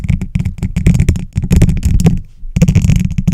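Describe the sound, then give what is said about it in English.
Pen scratching across paper while writing a note: fast, dense, rasping strokes in rapid bursts, broken by one brief pause before the scribbling resumes. “And how about if I write a note?”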